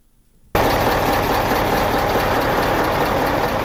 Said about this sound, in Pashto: د مالونو ډک دا ګاډي د تورخم په دروازه افغانستان ته دا وړېدو په انتظار دي